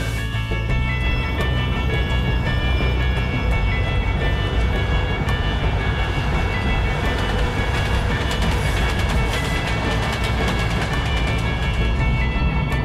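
A passenger train runs on rails on the line from Tobolsk north toward Novy Urengoy. Its loud, steady rumble and rattle carry on without a break, with faint clicks of the wheels over the track.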